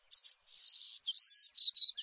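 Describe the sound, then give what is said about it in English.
A small songbird of forests from Nicaragua to Texas sings a short run of high, thin notes: quick chirps, a sustained buzzy tone and a brighter whistle, fairly faint and alone. “this special songbird's future depends on people stepping up to protect our forests, from Nicaragua to Texas.”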